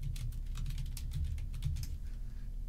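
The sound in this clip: Typing on a computer keyboard gives a quick, irregular run of light clicks that continues throughout, over a steady low hum.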